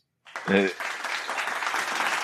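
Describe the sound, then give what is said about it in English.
Applause starts after a moment of silence, opening with a brief voiced burst before settling into steady, fairly loud clapping that runs to the end. “Okay, let's do the applause.”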